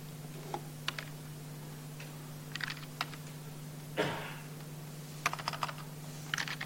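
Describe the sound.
Typing on a computer keyboard while writing a symbol: several short, faint bursts of key clicks with one slightly heavier tap, scattered over a steady low electrical hum.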